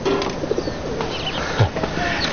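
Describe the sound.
A pigeon coos softly a few times, faint low calls half-buried in steady hissing background noise.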